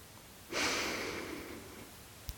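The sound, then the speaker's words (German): A deep inhalation during a guided breathing exercise: one long, rushing breath drawn in over nearly two seconds, loud at first and slowly tapering, alone without talk. “Und dann atme einmal tief ein.”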